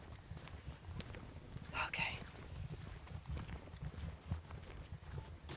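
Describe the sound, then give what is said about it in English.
Footsteps along a woodland path at night, an uneven series of soft crunching steps with a few sharper scuffs, while quiet voices murmur throughout. “And we're walking down a path.”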